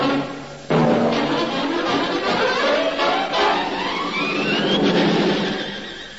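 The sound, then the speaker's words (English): A comic makeshift train made of a pram, two bathtubs, a wheelchair, a four-poster bed and a pie stall sets off with a sudden loud rattling rumble. Thin rising whistle-like tones sound over the sustained clatter, which eases toward the end. “There's your dining car. Oh, yes. Very good. Boy, what a train this is. A pram, two bathtubs, a wheelchair, a four-poster bed and a pie stall.”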